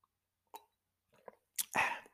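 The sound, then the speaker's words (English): Tea being sipped: a few faint, short mouth noises separated by silence, then a louder, drawn-out slurp and a final soft click. “I had to sip my tea.”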